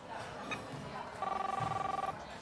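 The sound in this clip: A telephone rings while a call is being placed, giving one warbling, buzzy ring burst about a second long that sits over a quiet background.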